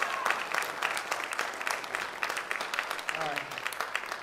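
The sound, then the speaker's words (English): An audience clapping hands in praise during a church service: many quick claps blend into a steady, lively patter that continues for the whole stretch. “Give a hand clap.”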